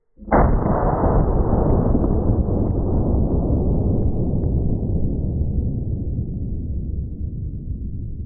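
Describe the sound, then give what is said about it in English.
RIP rounds fired at four pickle jars in the rain, exploding them: a single sharp blast opens into a long, loud, steady roar that fades slowly over several seconds. “It appears we took out all four jars. The fourth one, just barely. These RIP rounds are kind of a big deal.”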